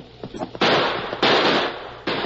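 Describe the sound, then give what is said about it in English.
Gunshots ring out during a horseback chase among trees, three loud, sharp blasts, each followed by a long, rough decaying tail, with a few softer knocks and rustles before the first shot. “That last shot hit home.”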